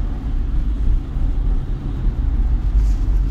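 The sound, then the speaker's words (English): A car drives home from work in Houston along roads glazed by freezing rain and ice. Its low, steady engine and road rumble hums throughout and rises and falls slightly, with no talk. “I'm driving home actually from work”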